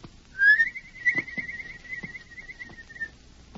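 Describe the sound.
A whistled signal, the agreed call taught by a companion, rings out as one long, steady high note lasting nearly three seconds with a slight warble. A sharper, louder accent comes near the start, with faint low thumps underneath.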